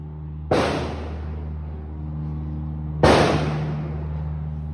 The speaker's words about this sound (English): That's when a hell of a lot of shooting started.